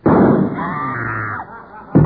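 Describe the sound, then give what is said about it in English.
Gunshot sound effect in a comedic murder-mystery scene after the lights go out: a loud blast with a long, noisy sustained tail, then another sharp burst at the end. “A shot is heard.”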